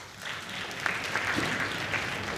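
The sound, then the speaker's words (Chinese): Audience applause welcoming two crosstalk comedians onto a stage at a comedy show, a dense, steady clatter of clapping that holds at an even level throughout, with no voices over it. “给大家带来一段他们自己创作的相声《人物趣谈》，咱们掌声有请二位”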